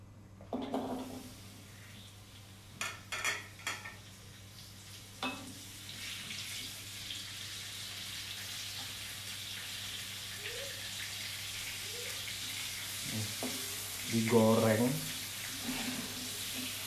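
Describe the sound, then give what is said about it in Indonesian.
Chili, shallots and tomato frying in a pan for sambal over medium or low heat, giving a steady, soft sizzling hiss. A few clinks and scrapes of stirring come early on. “terlalu banyak diaduk juga nggak masalah jadi digoreng aja sampai benar-benar mateng semuanya lembut pokoknya bawang cabai, tomat tuh semuanya lembut”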